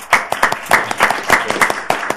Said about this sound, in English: can we suspend the rules and applaud these students?